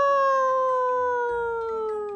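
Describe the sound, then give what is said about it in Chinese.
A human voice imitates a wolf howl: one long, steady tonal wail that slowly sinks in pitch, heard alone without other talk. “山中忽然传出了虎啸狼嚎之声啊！”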